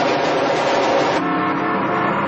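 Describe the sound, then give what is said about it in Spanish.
Roaring car engines in dense traffic as a car makes risky overtaking moves, a loud, continuous drone that shifts slightly in tone partway through. “Jimmy hace peligrosas maniobras de adelantamiento entre el denso tráfico.”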